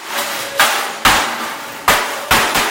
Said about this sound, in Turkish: Müşteriler koruyucu ekipmanlarını giyip ellerine çekiç ve sopaları alıyor, ardından şişeleri, televizyonları ve çeşitli eşyaları parçalayarak öfkelerini dışa vuruyor.